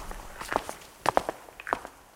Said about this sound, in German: Um zu den beiden übrigen Räumen zu gelangen, gehen wir den Gang zurück ins Foyer Nord.